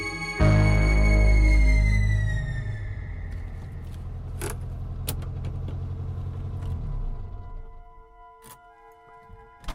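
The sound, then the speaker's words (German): A Volkswagen Golf rumbles to a stop. A loud, deep engine drone sets in, its tone sliding lower as it eases off and fades, with scattered metallic clicks and jingles near the end. “Als der VW Golf anhielt”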